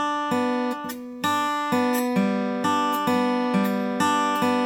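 An acoustic guitar plays a backward banjo roll picked on open strings, cycling middle, index and thumb in a steady, even pattern of many bright plucked notes that ring over each other, played alone without talk.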